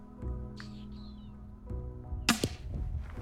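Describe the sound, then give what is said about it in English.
Tranquilizer gun firing a dart at a cub: one sharp, loud crack near the end, standing out over a steady low hum and faint high chirps. “He aims a tranquilizer gun.”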